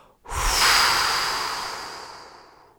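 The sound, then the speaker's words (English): A person exhales through the mouth, blowing, during a guided breathing exercise: one long, breathy rush of air that starts strong and slowly fades away, with no talk over it. “Take another big inhale. Exhale through your mouth, blowing.”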